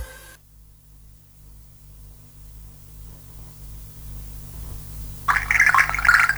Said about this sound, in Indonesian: ini airnya kenapa dibiarin ngalir terus?